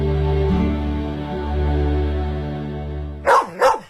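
Two quick, sharp dog barks close together at the end, following a steady low humming tone that fills the first three seconds.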